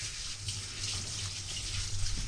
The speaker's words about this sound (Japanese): まずお米を研ぎます。